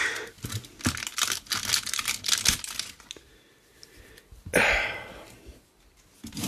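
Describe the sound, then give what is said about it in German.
A chocolate bar wrapper is torn open. Many sharp crinkles and crackles come first, then a brief lull, then one louder ripping burst. “ich reiße es jetzt einfach komplett miserabel auf. Hat eh keinen Sinn, hier das nochmal aufzureißen.”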